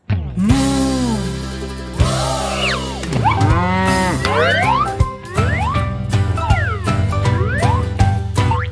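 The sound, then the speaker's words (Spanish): A long, drawn-out cow moo opens a children's song about a cow. Bouncy sliding tones and light jingly effects follow over a steady, cheerful musical backing. “¿Y cómo hace la vaca?”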